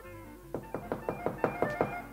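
Knocking on a home door in the evening, in a 1961 film: eight firm, evenly spaced knocks in a quick steady rhythm, with no voices.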